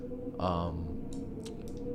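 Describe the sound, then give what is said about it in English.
Dice with differing odds rolled during a tabletop roleplaying game give a quick run of sharp clicks and rattles, following a brief voice, over a faint steady hum. “Okay, so roll with this dice because these dice have different”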